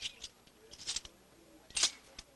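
Coins counted out onto a table: a few faint, bright metallic clinks at uneven intervals, with no voices.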